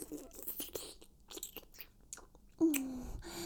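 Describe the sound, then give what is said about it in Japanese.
Wet licking and mouth sounds: close smacks, slurps and crunchy tongue clicks in a busy, uneven stream, with a brighter, sustained wet sound near the end. “舐め回しちゃった。舌が止まらないよ。”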